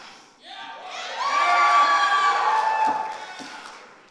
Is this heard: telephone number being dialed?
no